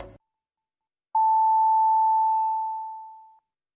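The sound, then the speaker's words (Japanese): A radio time-signal tone marks six o'clock: a single long, clear, steady beep that holds for about two seconds and then fades, alone against silence. “87.3 MHz レッツウェーブが6時をお知らせします。”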